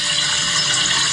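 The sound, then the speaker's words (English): Water being poured into a coffee pot makes a steady, fairly loud rushing splash that holds even throughout the short clip, with no talk over it. “That's the sound of coffee. That's the sound of water being poured into a coffee water pot.”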